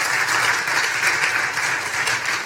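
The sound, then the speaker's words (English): A church audience claps in response to news about Christmas hampers for families in need, a dense and steady patter that fills the whole stretch at an even level. “There's more to come, so we'll just save the clap for afterwards, okay?”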